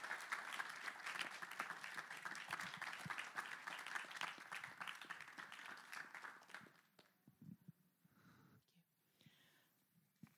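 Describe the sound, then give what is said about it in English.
Congregation applause in a church as a woman walks from the back to the front for her baptism. Dense, steady clapping fills about seven seconds, then quickly thins out into quiet shuffling and faint murmurs. “They just want to make that long walk, which gives you lots of time to give her a big hand. Please welcome her as she comes.”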